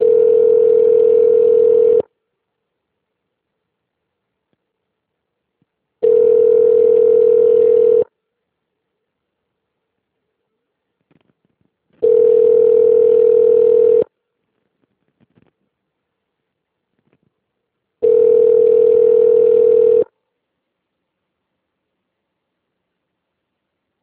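A telephone ringback tone sounds while a call connects to an extension: four steady, low electronic tones of about two seconds each, separated by longer silences in an even rhythm.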